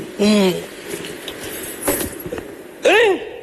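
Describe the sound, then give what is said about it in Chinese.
A set of new house and car keys jangles in brief metallic clinks between stretches of people talking. “这什么东西啊？给我看看。 啊，这不是咱们家新买的那个房子的钥匙吗？啊，对。 是吗？ 是。 这不是都咱们家车钥匙吗？”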